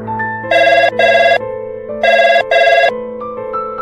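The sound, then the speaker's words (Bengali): A telephone rings while a number is called from a mobile. Two pairs of loud electronic ring bursts are separated by a short pause, over a sustained steady background tone. “পাশে লেখা phone নম্বরগুলোতে এক একে call করে শঙ্করের mobile থেকে”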